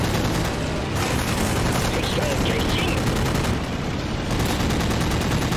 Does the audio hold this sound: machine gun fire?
yes

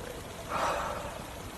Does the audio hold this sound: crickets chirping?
no

